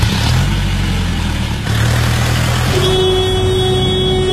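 Car engine roaring loudly as the car drives off fast in a hurry, a constant heavy rumble throughout, joined in the second half by a sustained steady horn-like tone.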